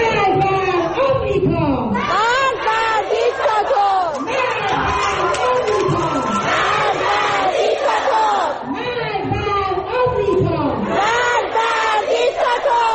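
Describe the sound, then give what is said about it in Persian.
Schoolchildren chant protest slogans in unison, a loud crowd of young voices repeating rhythmic shouted phrases without pause, with chatter underneath. “بله، این صدای دهه 80 ماست که بلدن شعارهای خودشونو بدن.”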